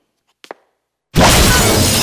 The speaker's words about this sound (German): Die Fenster des Wintergartens explodierten.